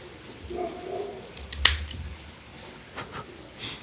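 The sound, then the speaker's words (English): A Macanudo Gold cigar's cap is cut with a Cassidy V-cutter, giving one sharp, crisp snip over faint handling rustle. “But let's go ahead and give it a cut and test out the cold draw. I am, as normal, using my Cassidy V-cutter.”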